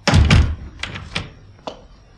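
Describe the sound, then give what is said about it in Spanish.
A door closes in a radio drama with a heavy thud, followed by a few lighter knocks and taps that fade down over the next second and a half. “Cerraré la puerta.”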